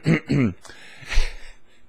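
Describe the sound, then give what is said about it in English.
A throat being cleared deliberately: two short voiced rasps in quick succession, then a rougher, noisier burst a moment later, followed by quiet. “And what we did there is get my throat clear.”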